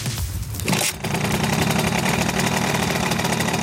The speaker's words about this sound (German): Das ist der typische Simson-Sound